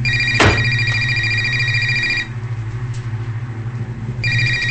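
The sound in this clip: Cell phone ringtone sounding from inside a purse, with a steady, repeating electronic tone pattern. A sharp knock comes near the start, and the ringing drops out partway through before starting again, over a low steady hum.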